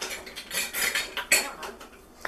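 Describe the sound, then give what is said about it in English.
A metal tablespoon clinks and scrapes against a bowl while measuring cinnamon, giving a few soft, bright taps and light rattles at low volume with no one talking. “Yep, a tablespoon I think will definitely be good. Again, this is going to go over the bowl because any extra, well, it's going to go right in the bowl”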